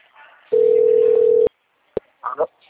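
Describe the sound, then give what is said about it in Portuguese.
A steady telephone tone sounds for about a second while a call is placed, then cuts off and is followed by a couple of sharp clicks and a brief voice. “tô ligando pra ele, tá bem?”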